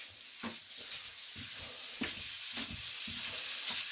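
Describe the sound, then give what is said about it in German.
Minced meat fries in a pan with a steady, bright sizzle. Scraping stir strokes cut through it at an uneven rhythm. “im Hintergrund so ein wunderschönes Grundrauschen vom Anbraten”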